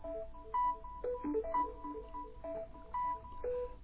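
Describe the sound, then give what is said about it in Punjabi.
A phone rings with an incoming call, playing an electronic ringtone melody of short, bright beeping tones that repeats its pattern several times. The tone is fairly faint over a steady low background hum, with no voices. “ਕਾਲ ਆ ਗਈ ਪਰ ਉਹ India ਦੀ ਕਾਲ ਆ”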